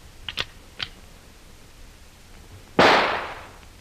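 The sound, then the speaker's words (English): A rifle shot in a radio drama, one sharp, loud blast that trails off in a decaying rush of noise, preceded by a few light clicks. “Here is the rifle, Hannah. Let me have it. This will be a little warning for them. A taste of what they are to get later.”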